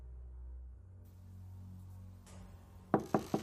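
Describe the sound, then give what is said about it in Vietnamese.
Three quick knocks on a room door near midnight, sharp and evenly spaced, coming after a stretch of quiet low hum. “Gần 12 giờ đêm, tiếng gõ cửa phòng của ông Vương vang lên.”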